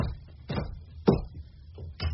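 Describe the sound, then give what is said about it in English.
A door being shut in a Western drama scene: a few faint, dull knocks and bumps, with a single stronger thud near the middle. “Now I'm closing the door.”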